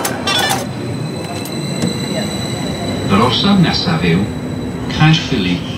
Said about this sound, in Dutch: The next station is Caerphilly.